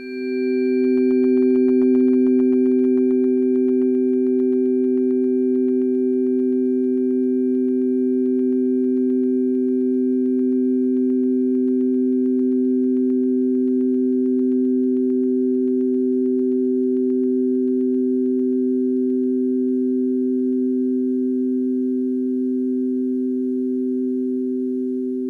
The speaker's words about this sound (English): so we have the tuning forks, and this is the one that will, is this the one that will stimulate that cycle?